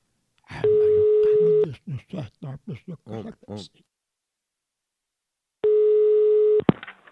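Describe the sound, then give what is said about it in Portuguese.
A telephone call is placed with two long, steady ringing tones separated by a quick run of short chirping tones, ending on a sharp click. “Vou ligar pra Leila.”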